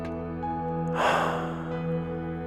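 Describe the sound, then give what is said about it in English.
Breathing in and out during a guided breathing exercise: an airy rush of breath rises suddenly over a steady low hum, then slowly thins out. “Breathe in, breathe out.”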